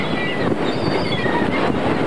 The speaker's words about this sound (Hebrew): זה רוח